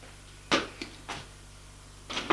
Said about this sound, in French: Et il ouvre le réfrigérateur.